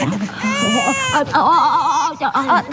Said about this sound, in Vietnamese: Thôi, đừng có khóc mà, đừng có khóc mà.